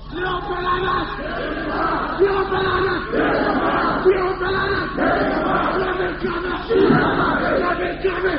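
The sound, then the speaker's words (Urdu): Crowd chanting a slogan at a religious gathering, with many voices calling out together in loud, rhythmic bursts separated by brief dips. “بول, نعرہ لگا لعنت اللہ علیہ شرکم.”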